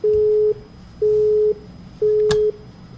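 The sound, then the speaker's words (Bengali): A telephone busy tone after a call is cut off: three even, steady mid-pitched beeps of about half a second each with short gaps between them, and one sharp click during the last beep. “আচ্ছা ওনার ফোনটা কেটে গিয়েছে।”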